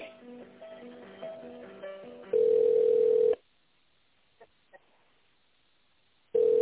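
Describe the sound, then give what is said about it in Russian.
Telephone ringback tones sound while a call is transferred to another person: two long, steady, mid-pitched beeps of about a second each, separated by a stretch of near-silence with a couple of faint clicks, after some brief tonal sounds. “С Вадимом вас соединю, оставайтесь на линии.”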